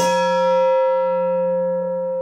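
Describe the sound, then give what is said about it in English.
A metal mixing bowl struck once like a chime, giving a clear, bell-like ringing tone that sustains and fades slowly over about two seconds, alone with no voices. “Weller would begin each counseling lesson with a chime. Now, she rings a mixing bowl.”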